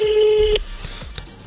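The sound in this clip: A telephone rings with one steady electronic tone of about half a second that cuts off abruptly, followed by a few faint clicks.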